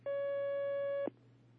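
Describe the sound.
A steady telephone line tone sounds as an incoming call is taken, holding one even pitch for about a second before cutting off abruptly.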